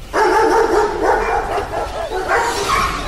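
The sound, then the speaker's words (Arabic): Dogs barking at a police station: a loud, nearly continuous run of barks and yelps that overlap through the whole clip, with no voices over them. “مالها كلاب الاسم دي بتهوهو ليه؟ مش عارف يا عم، ده تلاقيه منحرف حاول يهرب من الحبس والكلاب عضيته بره.”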